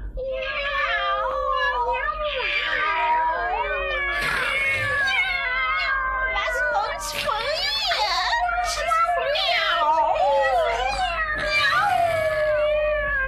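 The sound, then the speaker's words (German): Large black cats yowl and meow at midnight in a castle, several wailing cries overlapping with wavering pitch. They run continuously and loudly through the whole stretch. “Aha, es gibt Besuch. Große schwarze Katzen. Naja, warum nicht? Hey, ihr Narren, was schreit ihr?”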